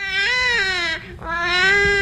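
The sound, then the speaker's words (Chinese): A newborn baby cries loudly in a hospital delivery room late at night, two strained, wailing bursts separated by a brief catch of breath. “我终于听到孩子哭声了。”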